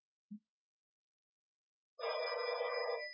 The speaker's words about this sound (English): Doubtless you heard the phone ring.